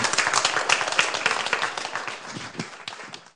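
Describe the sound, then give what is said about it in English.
An audience applauds to welcome Sister Jayanti onto the stage at a talk in Brighton, with dense, steady clapping that gradually thins and fades toward the end. “I'd like you to give a nice warm welcome and invite Sister Jayanti to come onto the”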